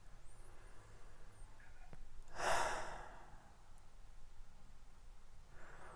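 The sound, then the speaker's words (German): One slow, deep breath taken during a guided breathing exercise, a soft airy rush that swells and then eases away, faint against quiet background hiss. “ein paar Mal tief ein- und ausatmen, um den Körper praktisch mit neuen Sauerstoff, neuer Energie zu versorgen.”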